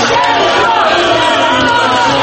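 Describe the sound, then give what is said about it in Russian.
Roughly 2000 supporters cheer and applaud outside the Central Election Commission building as the head of state arrives, a loud, continuous crowd roar that stays even from start to finish. “Аплодисментами у здания ЦИКа главу государства встречали около 2000 его сторонников.”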